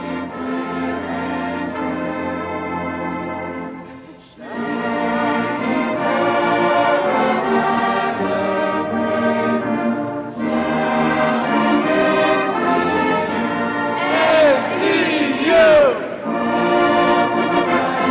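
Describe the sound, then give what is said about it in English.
A large crowd sings the university alma mater "Hark the Sound of Tar Heel Voices" at a memorial gathering, with arms joined. Sustained, slow phrases are sung together, with two short breaths between lines. “Now I ask you all to stand. Let us join arms and sing Hark the Sound of Tar Heel Voices.”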